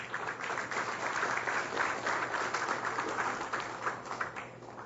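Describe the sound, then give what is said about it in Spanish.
Audience applause at a ceremony welcomes an arriving guest speaker. The clapping is a dense, even patter at low volume that carries on steadily for several seconds and eases slightly toward the end. “Álvaro González Siles, vamos a recibirle con fuertes aplausos”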